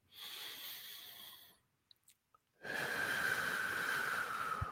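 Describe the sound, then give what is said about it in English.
A slow, deep breath is taken with eyes closed during a relaxation exercise: a long, soft, airy inhale, a short pause, then a longer, breathy exhale with a faint whistling edge, quiet and without talk. “So what you want to do is you close your eyes and take a deep breath.”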